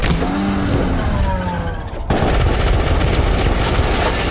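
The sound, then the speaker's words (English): Gunfire in a movie trailer: a loud continuous roar gives way, about halfway through, to a dense, sustained crackle of rapid shots. “We have an ongoing shootout at 24th and North Point Street.”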